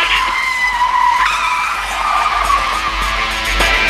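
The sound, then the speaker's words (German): Tire squeal from a car skidding as it is wrenched around at speed: a loud, continuous high-pitched screech whose tones shift in pitch partway through, heard alone without voices. “Der Kerl muss seine Karre herumgerissen haben, als er Berta 2 sah und fährt jetzt wieder zurück.”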